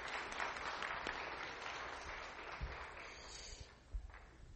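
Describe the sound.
A church audience applauds to welcome a speaker with steady, faint clapping that continues throughout.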